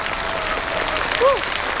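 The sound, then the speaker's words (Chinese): Applause from a live audience at a concert with a singer: a steady, dense wash of clapping throughout, with a brief rising whistle-like tone near the end. “再次掌声感谢，谢谢莫维蒂”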